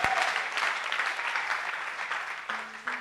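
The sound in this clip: An audience applauds during a French-language church sermon with a burst of dense clapping that starts strongly and gradually thins out.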